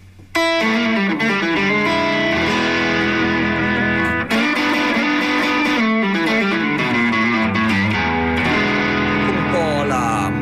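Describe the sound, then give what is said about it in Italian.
An electric guitar played through a distortion pedal in a bluesy style, with gritty, sustained notes and phrases ringing continuously at a steady, loud level. “ho pensato di partire con una cosa un po' più blues, okay. Anche se è un distorsore, però alla fine è un pedale che con cui si può fare anche”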